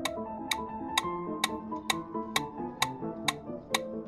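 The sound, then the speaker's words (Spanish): Steady ticking pulse, nine evenly spaced sharp ticks at a regular moderate tempo over a soft sustained tonal backing, with no talk. “el pulso no es más que un sonido constante, repetitivo y cíclico. No para hasta que algo lo interrumpe.”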